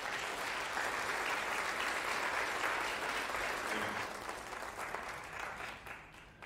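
Audience applause greets a guest preacher as he comes up, a dense, steady clapping that holds for several seconds and then tapers off toward the end.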